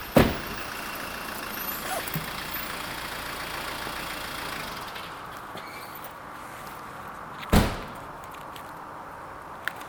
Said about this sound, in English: And we're on the M4 now, on the way to Swindon. And then I'll be driving back to Taunton.